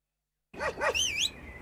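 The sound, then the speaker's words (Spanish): A happy dog barks twice in quick succession, then lets out a higher, wavering whine-like yelp, loud and alone after a moment of silence. “era un perro feliz”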